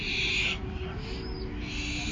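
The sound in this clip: Barn owl calls: harsh, breathy bursts at the start and again near the end, rising over a steady bed of background noise.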